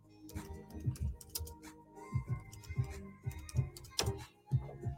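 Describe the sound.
Keys clicking on a computer keyboard in quick, uneven bursts of many taps, moderately loud, with faint tonal sound lingering underneath.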